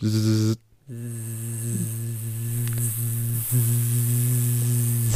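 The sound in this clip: A voice imitates a mosquito buzzing by the ear as someone lies down in bed with the light off, making a sustained, nasal, steady-pitched drone that breaks off briefly near the start and then carries on unbroken.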